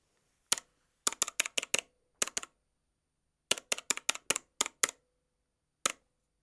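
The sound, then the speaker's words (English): Keystrokes on a keyboard as a login name, password and confirmation number are typed: crisp, separate clicks in short bursts, with a single tap, a quick run, a pair, a longer run and one final key, against silence. “So go back to the chat room registration and type in the name you used, your password, and the confirmation number.”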